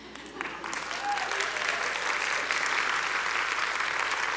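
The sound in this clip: An audience applauds as a panel of women is called up to the stage. The clapping builds over the first second and then holds steady and full.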